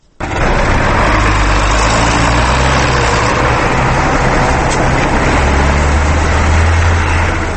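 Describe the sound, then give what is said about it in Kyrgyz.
Steady, loud engine drone of a John Deere wheeled tractor ploughing a stubble field at the edge of a village, a continuous low rumble holding even for the whole stretch without pauses. “Дөңгөлөктүү Джон Дир тракторунун буурусуну Кундратица айылынын четиндеги сүдүгөрдү тилип оодарып жатты.”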